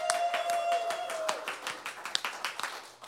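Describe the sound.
A studio audience at a live show gives applause, with distinct, fairly sparse claps ringing out over a few seconds and fading toward individual hand strikes near the end.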